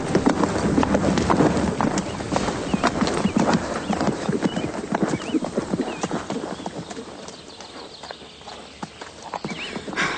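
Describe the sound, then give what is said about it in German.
Hoofbeats of a galloping horse ridden by a knight training with a lance, a rapid, dense drumming rhythm that is loud at first and eases slightly toward the end. “Beim Training reitet Ritter Konrad auf seinem Pferd im Galopp, hält die Lanze in der Mitte fest und streckt sie nach vorne.”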